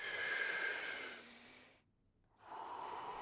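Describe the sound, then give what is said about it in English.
A deep breath drawn using the belly and chest: a faint, long, airy rush of breath, a short silence, then a second breath begins. “So use your belly and use your chest to inhale fully.”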